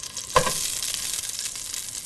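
Ginger and pork sizzle in a frying pan greased with a little oil on a stove: a dense, steady hiss with one sharp clack near the start.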